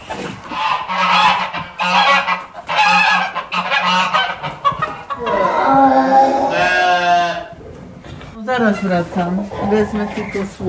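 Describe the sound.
A goat bleats in a series of quavering, wavering calls, with people talking throughout.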